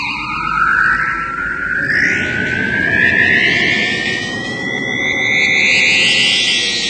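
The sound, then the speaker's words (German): A witch's magic broom whooshes away in a loud, swirling sound effect, with sweeping tones that rise steadily over a dense, echoing roar. No voices. “Komm, Kartoffelbrei. Wir müssen los. Ene, mene, Mai. Flieg los, Kartoffelbrei. Hex, Hex.”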